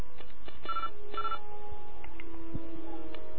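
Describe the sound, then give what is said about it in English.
Telephone keypad tones dialing a customer support line: a few short, steady electronic beeps separated by brief gaps, quiet, mixed with scattered soft clicks. “I dialed them. They answered. I dialed zero. We're waiting.”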